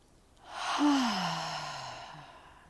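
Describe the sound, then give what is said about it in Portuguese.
A single slow, audible exhale through the mouth during a guided breathing exercise, breathy and sigh-like with a faint voiced tone that drifts downward in pitch, swelling quickly and then fading gradually. “inspira pelo nariz. E solta o ar pela boca, deixando que faça um som de...”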